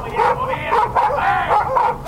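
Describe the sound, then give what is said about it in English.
A Karelian bear dog barks while facing down a wild bear: a rapid series of sharp, tonal barks with yelping edges, loud and following one another in quick rhythmic succession. “When it's time to go nose-to-nose with a wild bear, Carilion bear dog Cash won't back down.”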